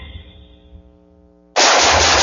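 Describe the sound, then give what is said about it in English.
Gunfire bursts in abruptly after a quieter tonal passage, a loud, dense, sustained roar of shooting that holds steady to the end without any voices. “Woo, nice shooting.”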